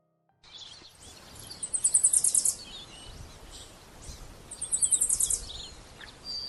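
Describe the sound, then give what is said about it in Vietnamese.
A sparrow sings from a starfruit tree branch beside a house, with two bursts of rapid, high, bright chirps separated by a pause over a soft, steady background hiss. “Tiếng hót của con chim sẻ đậu trên cành cây khế cặp bên hông nhà như mọi hôm là cái đồng hồ báo thức của An.”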